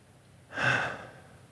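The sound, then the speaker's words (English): A single deep breath: one breathy intake swells quickly, peaks for a moment, then fades, heard alone against a quiet background. “I can take a deep breath.”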